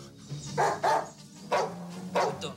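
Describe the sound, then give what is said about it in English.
A dog barks in a film: several deep, gruff woofs in uneven bursts, with two close together at first and then more spaced apart, heard alone without talk. “Shut up, doggy. Nice doggy. You're not a mutt. You're a good doggy.”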